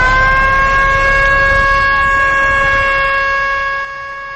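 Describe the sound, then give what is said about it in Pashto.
An ambulance siren sounds in Kandahar after a bomb explosion. It is a loud, steady, harmonic wail held at one pitch throughout, and it eases slightly in level near the end with no voices. “تر پیښې وروسته سیمې ته د امبولانسونو تګ او راتګ پیل شو.”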